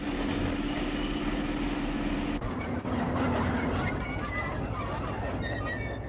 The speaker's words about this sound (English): He really got ahead of this train by a ways, man.